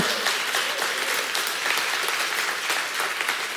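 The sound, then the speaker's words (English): Audience applause at a gathering, a dense, steady patter of many hands clapping at an even loudness for about three and a half seconds, with no voices standing out. “I take it the clap was a permission”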